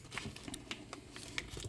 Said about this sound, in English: I found my cheese knife. You did? Yeah. Great. Well, let's put it to use. Ready? Let's cut into this thing.